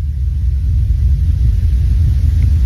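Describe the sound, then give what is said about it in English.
A truck rolls by outside, heard as a loud, continuous low rumble that stays fairly even throughout, with no voices over it. “Though I did just hear some kind of truck roll by.”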